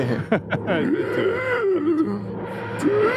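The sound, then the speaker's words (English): A voice imitating a sci-fi time machine wheezing with its handbrake on: a strained, groaning hum whose pitch wavers and wobbles up and down for several seconds. “Sorry, that's my impression of a TARDIS with the handbrake on.”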